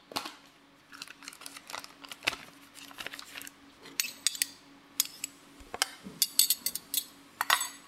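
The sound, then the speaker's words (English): A small whisk clinks against a bowl while mixing miso paste with butter, giving faint, quick metallic taps that come in irregular clusters with short pauses between. “I'll put 2 teaspoons and mix it together with 3 tablespoons of butter and whisk it together with a small whisk.”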